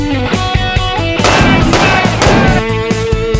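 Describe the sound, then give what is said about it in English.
Gunshots from a Kitchen Gun fired at a filthy sink: a loud, dense run of many sharp bangs in quick succession, packed over a thick, sustained bed of sound. “Sink is filthy, but just three shots from kitchen gun, and the germs are gone.”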